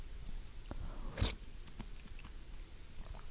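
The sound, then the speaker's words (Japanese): Faint chewing of macaroni and shimeji mushroom soup with bacon. Soft munching runs throughout, with one crisp crunch near the middle and no talk. “マカロニときのこが一緒に口に入ると、マカロニはちょっとこう柔らかくて、きのこはシャキシャキした感じで、歯触りの差もあって”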